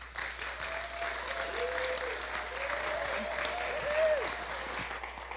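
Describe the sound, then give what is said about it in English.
Audience applause welcoming a speaker at the Foothill Center for Spiritual Living, a steady, even wash of many hands clapping that runs unbroken for about five seconds. “So let's give her a warm Foothill welcome.”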